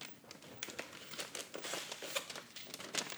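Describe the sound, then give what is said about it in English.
A paper ballot and its envelope are handled and opened, making faint, quiet crinkling and rustling with a few light taps throughout. “Taking my ballot out of the envelope, setting the envelope aside.”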